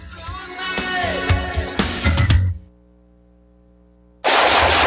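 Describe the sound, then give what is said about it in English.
Gunfire, with a run of sharp shots over ringing tones, then a near-silent pause, then an abrupt loud burst of hissing noise. “Woo, nice shooting.”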